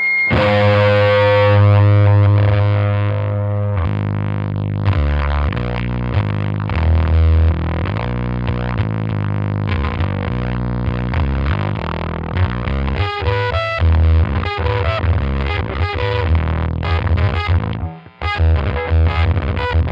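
Heavily distorted electric guitar played through a fuzz pedal on the neck pickup, with thick, buzzing low harmonics. Chords and notes ring on loudly and continuously with no talk, briefly cutting out near the end.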